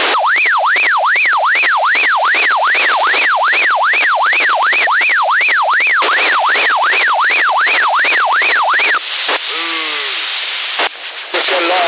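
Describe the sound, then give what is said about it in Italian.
An ambulance siren in Sassari, picked up over CB radio, wails in rapid rising-and-falling sweeps. The loud, steady sweeps repeat many times for about nine seconds, then give way to scattered, noisier sounds. “Sono le ambulanze.”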